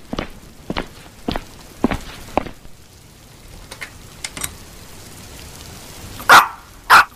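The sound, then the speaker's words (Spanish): A female dog gives two loud, sharp barks close together near the end, after a few quieter, scattered taps and knocks. “¡La perra está aquí!”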